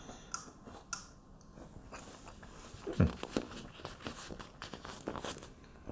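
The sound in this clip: Faint chewing of a chocolate and peanut butter snack, with soft crunchy bites and light crinkling in an irregular rhythm. One sharper crunch stands out near the middle.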